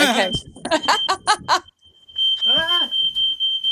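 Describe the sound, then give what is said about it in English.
A smoke alarm goes off in a home, set off by burning bacon. A steady, piercing high-pitched tone sounds alongside a person talking, then continues on its own after a short pause. “Oh, can you hear that? Yeah, that's my fire alarm. Sorry. Just let me open the window.”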